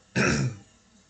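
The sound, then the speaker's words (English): Someone gives a single short, gruff throat clearing in the middle of a casual conversation. The sound is isolated, with quiet before and after it. “sorry, my throat is throaty. It's gone now.”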